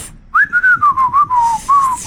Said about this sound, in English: Can you not whistle? Oh, shut up. You can't whistle.